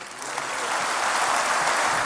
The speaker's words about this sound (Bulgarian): Аплодисменти за госпожа Фандъкова.